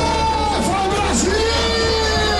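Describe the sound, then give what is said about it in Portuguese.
Football fans in a bar cheer while watching Brazil's national team, a dense, continuous roar of yells, whoops and bellowing voices that holds loud and steady throughout. “E a empolgação era tanta que o bar parecia arquibancada. A torcida ficou animada com o primeiro tempo da seleção. Mas a expectativa agora é para Neymar. Sente só.”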